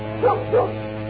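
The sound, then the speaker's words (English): A dog in a studio gives two short, high whimpering yips in quick succession, fairly faint over a steady low hum. “Sorry, my dog got here somehow. I don't know where he came from, but... Over there, where you usually stay.”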